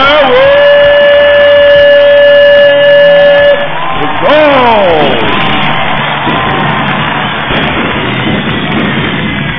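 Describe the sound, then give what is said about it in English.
An arena crowd at a wrestling event cheers a wrestler, a loud, unbroken roar of many voices with whoops and shouts rising and falling throughout. “This crowd booed Daryl Bazaar earlier when he was in the ring with Lee Reel, and now they're cheering him like he's the President of the United States.”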